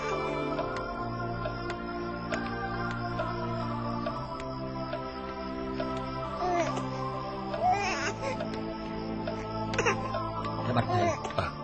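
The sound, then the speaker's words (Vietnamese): A small child cries in faint, intermittent wails that grow more noticeable toward the end, over a steady tonal background hum. “Bạch thầy có tiếng trẻ nhỏ không? Mình tìm xem ở đâu.”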